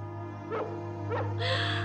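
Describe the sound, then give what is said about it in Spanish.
Puppies barking, Dalmatian pups in an animated film scene. Two short, high yips come about half a second apart over a steady tonal background, followed by a brighter, noisier burst at the end. “A veces por las noches hasta me parece oírlos ladrar.”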